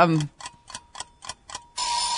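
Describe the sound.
A quiz countdown timer ticks about five times at a steady, quick pace, then a loud sustained buzzer sounds. A brief voice is heard at the very start.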